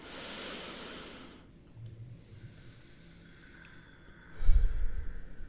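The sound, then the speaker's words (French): A deep breath drawn in during a guided reflection, a soft breathy rush lasting about a second and a half, followed by a quiet stretch and a louder low rumble near the end. “J'inspire.”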